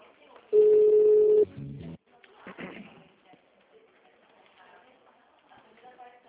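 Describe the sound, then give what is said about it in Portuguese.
Telephone ring tone on a call being transferred, one loud steady tone burst followed by a shorter lower tone, then quieter audio continues. “Vou transferir sua ligação para um de nossos colaboradores. Por favor, aguarde.”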